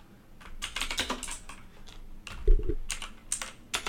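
Typing on a computer keyboard comes in bursts of rapid, crisp keystroke clicks separated by short pauses, with one heavier tap near the middle.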